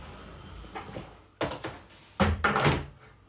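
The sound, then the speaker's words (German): A toy sword is propped inside a wardrobe, making dull wooden thunks and knocks: a first cluster of soft bumps, then a louder group of knocks against the cupboard. No one speaks. “Dann stütze ich mein Zelda-Schwert in meinen Schrank.”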